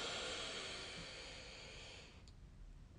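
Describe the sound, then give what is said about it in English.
A long inhale through the right nostril during an alternate-nostril breathing exercise: a steady, airy nasal hiss that lasts about two seconds, then fades away. No one speaks over it. “you're going to exhale out of your right nostril. So push all the air out. Now inhale from your right nostril.”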